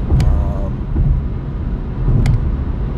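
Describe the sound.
A car drives along a road, its low, steady rumble of engine and road noise running throughout beneath a person talking.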